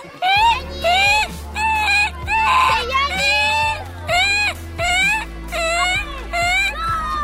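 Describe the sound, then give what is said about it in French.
A human voice imitates a koala's call with many repeated wailing, moaning cries in a steady rhythm. Each cry is pitched high and carries a low droning buzz beneath it. “Moi c'est le koala et son cri c'est...”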